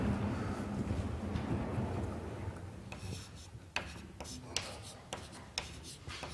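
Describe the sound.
Scratchy strokes of writing on a board during a maths lecture. A dull, steady rumble gives way to several sharp, raspy strokes with short pauses between them.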